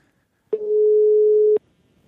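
A telephone ringback tone plays while a call is placed to someone: a single steady, mid-pitched beep lasting about a second, alone against near silence.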